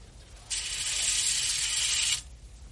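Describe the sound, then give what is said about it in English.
Curtains are drawn in one continuous slide, a bright, rushing, slightly mechanical scrape that starts abruptly, holds steady for under two seconds and stops sharply, with quiet before and after. “The light is hurting my eyes. Please draw the curtains again.”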